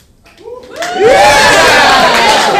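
A live show audience cheers and whoops in reply to a host. A single rising whoop comes first, then loud massed cheering holds steady to the end.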